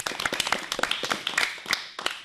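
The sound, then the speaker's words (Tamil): Uneven clapping rises from a small group congratulating performers at a school event. The separate, crisp claps patter irregularly rather than merging into a full roar. “வாழ்த்துக்களும் பாராட்டுகளும். எல்லாரும் clap பண்ணுங்க.”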